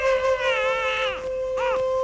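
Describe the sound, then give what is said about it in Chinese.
Infant crying from a prison cell: a long, wavering wail that drops away, followed by a shorter cry, over a steady background tone. “又从另外的监牢传出婴儿的啼哭声。”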